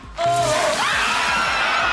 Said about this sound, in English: It's just water.